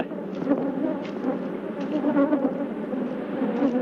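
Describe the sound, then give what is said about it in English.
A swarm of attacking killer bees buzzes around a large camera, a loud, dense, unbroken droning hum that holds steady throughout without pauses. “It's amazing. I actually feel the bees hitting me. I made it about the same number of bees around the big camera.”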